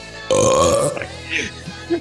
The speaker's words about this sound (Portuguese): Ah, o Arroto foi você? Foi, cara! Foi eu!